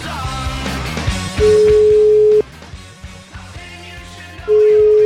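A telephone rings out on an outgoing call with two loud, steady, mid-pitched tones, the second cut off at the end, over continuous background music.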